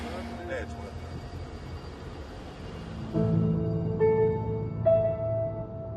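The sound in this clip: A car drives off with a low engine rumble that swells louder partway through, carrying a steady tonal whine, while people talk.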